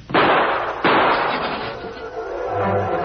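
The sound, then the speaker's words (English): Gunshots in a shootout between officers and a man who has drawn a gun: two loud, sharp blasts in quick succession, each trailing into a lingering rumbling decay. “Look out, Patsy. He's going for a gun. I'm hit, Nick.”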